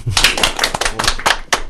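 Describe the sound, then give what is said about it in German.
A small studio audience claps in a brief burst of sharp, slightly irregular hand claps that rise and fall in loudness. “die anderen, die hier so im Studio sind, wollen wir einfach mal klatschen?”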